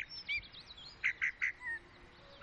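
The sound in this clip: Mistle thrush song from rose beds in a winter garden at daybreak: faint, high whistled notes with a quick cluster of three bright notes midway, heard alone without voices.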